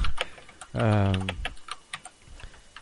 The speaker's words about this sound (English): Why does he type when we fucking talk? That's what kills me.